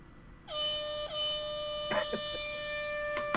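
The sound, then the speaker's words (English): Air horn sound effect: a loud, sustained multi-tone blast with a brief break just after it starts, then it holds steady for about three seconds while short voice bursts sound over it. “boy, that's a weak, my air horn's way better.”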